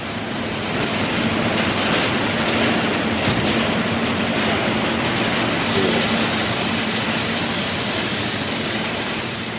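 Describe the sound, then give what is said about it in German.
A coin press mints 1 cent coins at 850 strokes per minute, its rapid strokes blurring into a loud, steady, dense mechanical roar that holds unbroken for the whole stretch with no voices. “Umlaufmünzfertigung, 1 Cent Produktion und Maschine macht 750 Hub in der Minute. Also jetzt ist er eingestellt auf 850 Hub in der Minute.”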